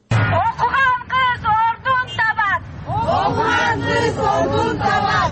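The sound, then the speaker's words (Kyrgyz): Crowd chanting at a women's rights march in Bishkek: many voices shout slogans together in rhythmic bursts, then swell into a broader, continuous roar of marchers calling out at once. “Аялдар укуктарын коргогон бир катар уюмдардын жөө жүрүшү Бишкектеги Ак Үй имаратынын алдынан өтүп,”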